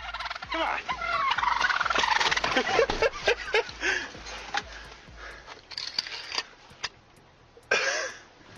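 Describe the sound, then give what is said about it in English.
Turkeys gobble in a run of loud, warbling, rattling calls, with many bursts crowding together early and then thinning into scattered, separate gobbles toward the end. “Guys are angry. At least he didn't shoot the turkeys.”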